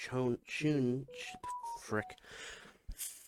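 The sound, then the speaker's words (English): A mobile phone notification plays a brief run of clean electronic beeps that step up and then back down in pitch. Loud, animated talking voices sit over and around the tones. “Shut up, Nathan's phone! Nobody cares about you!”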